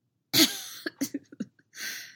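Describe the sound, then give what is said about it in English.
A man, injured, coughs in a fit after laughing: one harsh burst, then a quick series of short, dry coughs and a final longer rasping one, fairly faint and with no speech. “Anakin laughed, which triggered another fit of coughing.”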